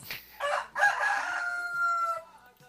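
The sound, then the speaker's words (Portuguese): Three roosters crowing in competition: a loud, long, harmonic crow that rises sharply, holds a strained tone for over a second, then trails off, with other fowl calls around it. “esses três galos aqui, numa disputa para ver quem é que cantava. Rapaz, estão todos os três cantando”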